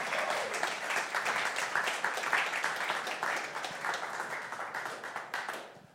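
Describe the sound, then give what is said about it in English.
A church audience gives a round of applause to two guest speakers after their morning message. Rapid, crisp clapping swells and wavers, then thins out and fades near the end. “If you appreciate what Steve and Marcy had to say this morning, just give them a round of applause.”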